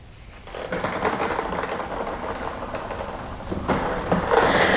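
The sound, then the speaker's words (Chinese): Whirring mechanical churn of a sports lottery draw machine starting up for a seven-digit number draw as it tumbles the numbered balls, a rattling, noisy rumble building from a quiet start and staying steady, turning brighter toward the end. “请工作人员启动摇奖机。”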